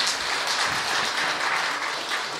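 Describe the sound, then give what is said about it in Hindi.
An audience clapping at a talk, a thick, continuous wash of many hands applauding at an even, sustained level with no pauses. “इसके लिए तो ताली बजनी चाहिए।”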